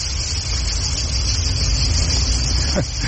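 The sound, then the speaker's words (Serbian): Crickets chirp near a parking lot on a hot summer day, a continuous high, shimmering trill held over a low, steady rumble. “Krenuo sam do parkinga, čujete zrikavce, oni pjevaju svoju ljetnju serenadu.”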